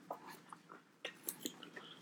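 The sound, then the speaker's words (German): A pizza topped with hard potatoes, paprika and salami is chewed, producing faint, scattered crunches and clicks, a few sharper bites standing out against near silence. “Paprika, irgendwelche komische Salami und halt. Die Kartoffeln sind sehr hart auf deiner Pizza. So, wir probieren das jetzt einfach mal.”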